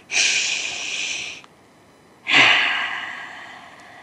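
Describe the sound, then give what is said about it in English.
A deep breath taken with eyes closed during a guided mindfulness exercise: two long, airy, hissing breath sounds, the first held about a second, the second slightly longer and tapering off, with no talking. “Close your eyes and take a breath.”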